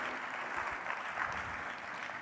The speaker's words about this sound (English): We got a couple of golf claps here.